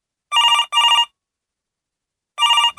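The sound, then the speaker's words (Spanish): A telephone bell rings in short bright bursts: two rings back to back, a pause of over a second, then a third ring. Each ring is loud, clear and alone, with no talk over it. “Tenemos otra llamada.”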